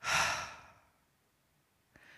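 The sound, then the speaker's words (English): A single deep exhale through the mouth after a breath in through the nose, loud and breathy at first and then fading away, followed by a faint brief sound near the end. “take a deep breath. In through your nose and out through your mouth.”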